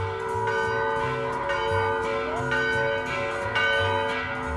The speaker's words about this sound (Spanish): San Sebastián, que me recibe con alegres campanadas